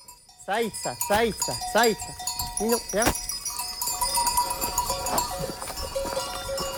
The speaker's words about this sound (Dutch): Loop in Oost-Frankrijk in de bergen achter een kudde van 75 schapen die omhoog klimmen.